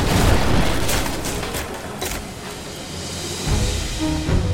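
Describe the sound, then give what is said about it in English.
A cannon broadside fires from a sailing warship: several heavy booms with crackling, rumbling bursts between them, loud throughout with no voices. “At his command, they shot these cannonballs, blasting up through the deck planking and into the Spanish crew, which had massed to repel boarders.”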